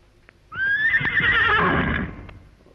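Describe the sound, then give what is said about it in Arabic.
A horse gives one long, loud whinny at an equestrian display of officers' riding games and hurdle jumping. The call is bright and wavering, lasts about two seconds and fades away at the end. “هاتوا حصان ننط بيه على الحواجز.”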